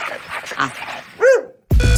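A working dog gives a short, sharp bark after a man calls out to it, then a louder burst follows as the bark cuts off.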